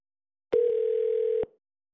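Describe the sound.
A telephone dial tone sounds after a call is disconnected: one steady, flat, mid-pitched tone lasting about a second, with a click at each end and nothing else around it.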